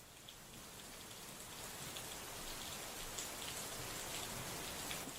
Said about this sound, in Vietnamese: chỉ biết rằng đêm hôm ấy trời tự nhiên đổ mưa to, mưa dữ tợn lắm.